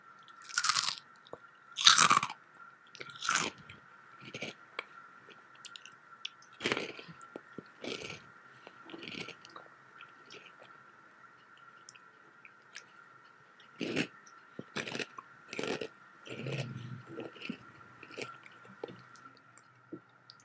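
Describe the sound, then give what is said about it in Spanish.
Flaming Hot Cheetos Puffs crunch and get chewed in many crisp, fairly quiet bursts with gaps of silence between them. A faint steady hum runs underneath. “ASMR, ah, de Cheto Puff. creo que es mi turno con el crujito Flaming Hot, que en lo personal de mis favoritas. Ahí va.”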